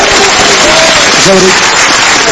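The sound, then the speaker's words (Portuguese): A church audience applauds for Jesus during a worship service, dense steady clapping running the whole way through at an even loudness, with a few faint tonal sounds over it. “Quem pode aplaudir ao Senhor Jesus?”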